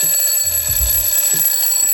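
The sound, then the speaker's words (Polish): A classic analog bedside alarm clock rings without a break, a loud, steady, bright metallic ringing that holds at an even level throughout. “Tak brzmiały nasze budziki. Tak, analogowe, taki klasyczny w ogóle zegarek, który stał na szafce nocnej”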